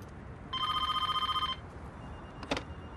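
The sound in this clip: Telephone ringing during an outgoing call: a single bright, trilling ring lasting about a second, followed by a brief click.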